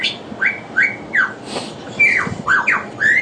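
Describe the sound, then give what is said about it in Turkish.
A lyrebird mimics other birds' calls, producing a run of sharp, whistled chirps with quick downward-sweeping notes, repeated at an irregular pace. No voices are heard. “Lir kuşunun kendine ait sesi değil. Biz onu belirtelim de bu kendi sesi değil. Başka kuşların seslerini çıkartıyor şu anda.”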